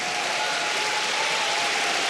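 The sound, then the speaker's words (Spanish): Church audience clapping hands in praise: a continuous, dense patter of many hands under a steady held musical tone, with no speech. “Vamos, dele palmas al Señor por eso.”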